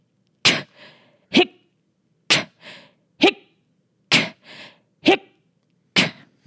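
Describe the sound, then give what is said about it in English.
Quick, forceful breath exchanges of an anti-G straining maneuver, made by a person: seven sharp, explosive bursts of breath in a steady rhythm, some followed by a softer, breathy release. “So the breath exchange should be very short and quick, about two three seconds. So it goes, hic”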